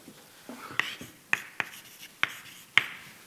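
Writing on a board during a maths lecture: a few sharp, clicking taps and short scratchy strokes, fairly faint, with brief pauses between them.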